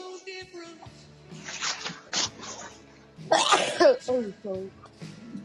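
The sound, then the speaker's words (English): A messy, wet sneeze bursts out loudly and abruptly between stretches of people talking, surrounded by softer throat and mouth noises. “That was like messy sneeze.”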